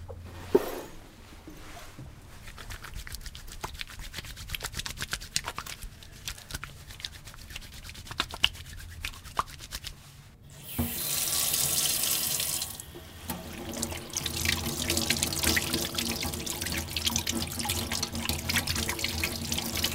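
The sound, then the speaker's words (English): Hands being washed under a running tap at a sink. A soft trickle with light rubbing and splashing gives way to a louder gush of water, then a steady rushing flow continues to the end. “That's the sound of somebody washing their hands.”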